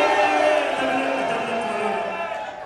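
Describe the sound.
A game-show crowd boos as a contestant rises with the gong. The drawn-out, voiced jeer is loudest at the start and slowly fades away.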